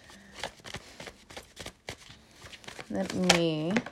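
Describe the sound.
Tarot cards drawn and handled from a deck: soft, papery slides and flicks in a quick, uneven run, with a brief voice near the end.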